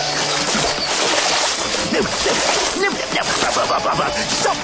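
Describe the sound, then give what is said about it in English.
Paddles splash and slosh through water during a surprise boat trip in a forest, a steady wash of splashing that continues evenly through the whole stretch. “Cornelius takes them back to the forest on a surprise boat trip and teaches them another valuable lesson in life: the importance of working together. All right. Abigail, Russell, you paddle first.”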